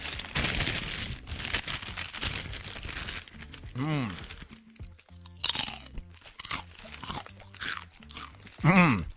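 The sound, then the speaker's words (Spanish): Crunchy Takis rolled tortilla chips being bitten and chewed, with many loud, dry crunches in an uneven rhythm and voices speaking at moments in between. “Y canalizan toda esa intensidad en cada mordida. Takis. La botana de la afición más intensa.”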